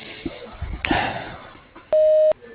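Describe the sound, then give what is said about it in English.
A voicemail message tone follows brief talk: a single clean, steady beep lasting under half a second. “Please leave a message at the tone and he will return your call as soon as possible.”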